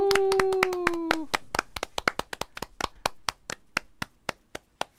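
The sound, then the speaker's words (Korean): Audience applause before a song from a musical about Paganini: many claps that thin out into scattered single claps at a steady pace, fading toward the end. “박수 보내주세요”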